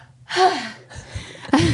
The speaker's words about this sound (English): This mic picks up your breath really badly, so I wanted to breathe out of it.